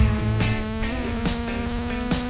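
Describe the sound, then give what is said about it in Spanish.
A mosquito buzzes in a steady, droning, unchanging tone, broken by a few sharp crackling bursts at regular intervals. “Ay, tenemos zancudo.”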